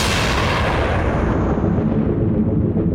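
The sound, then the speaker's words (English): A gunshot from a handgun fired in a tense drama scene, heard as a loud, broad boom already underway at the start, its bright upper hiss fading over the following seconds while a low rumble lingers, with no voices. “Finn comes running in right as Sheila shoots the gun.”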